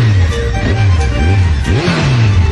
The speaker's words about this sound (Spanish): La moto del Toto.